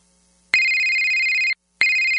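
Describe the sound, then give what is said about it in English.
A telephone rings with a loud electronic ringtone: two long, steady, high-pitched bursts, each lasting about a second, separated by a brief silent gap. “Don't you dread that phone call?”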